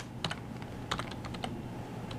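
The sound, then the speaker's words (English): Typing on a computer keyboard as a domain name is entered: a quick, irregular run of light keystrokes, quiet and clicky, with short pauses between small bursts. “I'm going to type in my domain name followed by the name of the group.”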